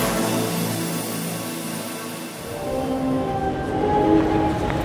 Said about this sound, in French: je vous retrouve en gare de Paris-Montparnasse, où doit bientôt arriver le train en provenance de Bordeaux